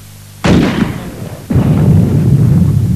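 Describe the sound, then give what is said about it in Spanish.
Artillery fires in a Spanish-language War of the Worlds radio drama, from guns set in the Watchung mountains: two heavy booming blasts about a second apart, each followed by a long rumbling roll. “tenemos contacto con las fuerzas de artillería desplegadas en las montañas Watchung. Alcance 32 metros. 32 metros. Proyección 39 grados. 39 grados. ¡Fuego!”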